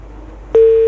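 A single short, steady mid-pitched telephone busy tone after a dropped call on a call-in line. It starts abruptly after near silence and holds level before cutting off.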